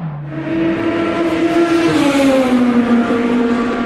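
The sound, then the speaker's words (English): Race cars roar on the start-finish straight at the Le Mans 24 Hours 2012 during the final stages, a loud, sustained engine drone whose pitch slides gently downward, with no voices. “That sound can mean only one thing. I am back on the start-finish straight with a somewhat broken voice for the final stages of the Le Mans 24 Hours 2012.”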